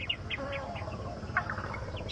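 A warbler gives a series of short, high chirps, about nine quick notes spaced fairly evenly, faint over a low, steady background rumble.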